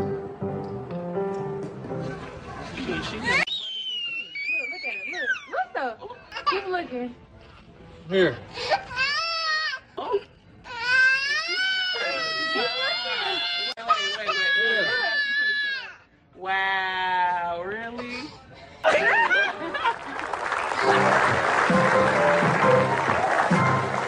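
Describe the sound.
A baby cries in a played video, with repeated rising and falling wails broken by whimpers and short pauses, loud and harmonic, ending in a stretch of rougher, noisier crying.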